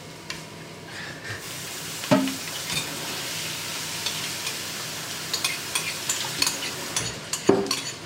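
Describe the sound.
Cherries and onions sizzle in a frying pan: a steady hiss of frying with a few sharp scraping clinks from stirring scattered through it, moderately loud, with no talking.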